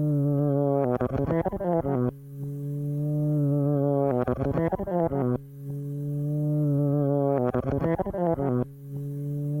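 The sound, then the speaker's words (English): A looped bass groove played backward, repeating three times: each cycle swells in on a sustained low note, then breaks into a rapid run of fast plucked notes that sound reversed, with a short gap before the next repeat. “But it also sounds like he's playing that little groove, but then he reversed it.”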